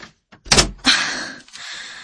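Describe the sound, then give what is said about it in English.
A door being shut in a doctor's clinic: a couple of solid knocking thuds followed by a broad rattling rush that fades, then a softer closing sound near the end, with no talk. “Close the door.”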